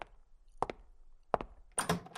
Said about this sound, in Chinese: 谁在敲门啊？是爸妈回来了吗？